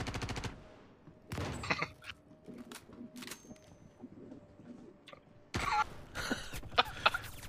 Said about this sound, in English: Oh, someone's actually shooting.